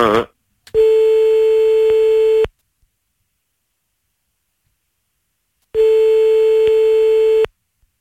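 Telephone ringing tone as a call is placed during a prank call: two long, steady buzzing tones, each about a second and a half, separated by several seconds of silence, with no voices over them.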